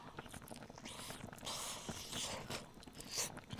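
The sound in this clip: Chewing of meat taken from a hot pot with napa cabbage and sesame oil: quiet, wet mouth sounds with a few faint crunches and bites, alone without talk.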